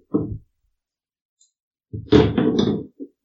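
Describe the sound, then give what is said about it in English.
Three six-sided dice rolled on a table: a brief knock, then a longer burst of clattering thuds as they tumble, and a final small knock. “you can roll three d six three of those, and then tell me if you get a five or a six.”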